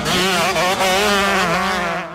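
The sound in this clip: Loud engine roar from a large group of motocross bikes at the start of a race. It forms a dense, continuous, rasping drone with wavering pitch and eases slightly at the very end. No voices are heard.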